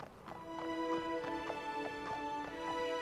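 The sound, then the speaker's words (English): Horse hooves clip-clop in a steady, even rhythm as a rider crosses a desolate flat valley, the regular hoofbeats mixed with sustained, held musical tones. “rides a horse across a desolate flat valley”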